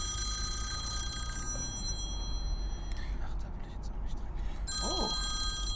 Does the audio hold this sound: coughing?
no

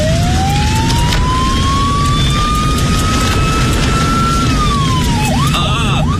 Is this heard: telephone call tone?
no

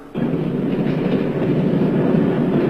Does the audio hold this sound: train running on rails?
yes

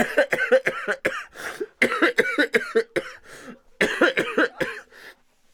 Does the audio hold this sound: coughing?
yes

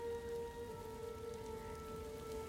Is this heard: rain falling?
yes

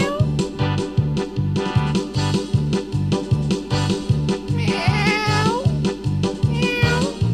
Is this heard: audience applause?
no

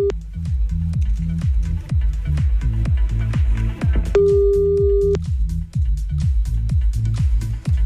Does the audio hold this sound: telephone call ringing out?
yes

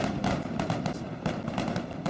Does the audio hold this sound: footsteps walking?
no

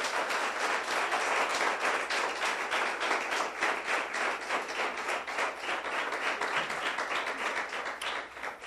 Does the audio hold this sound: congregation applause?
yes

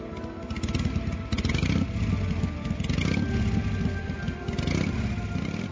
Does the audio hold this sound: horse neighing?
no

